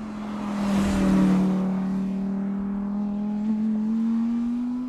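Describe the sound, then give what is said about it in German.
An Audi R8 race car passes at about 200 km/h on a racetrack. A steady engine whine swells to its loudest early on, then holds as the pitch climbs gradually toward the end. No voices are heard. “an der Rennstrecke stehe und ein R8 so 2 Meter neben mir mit 200 km/h oder so vorbeifährt”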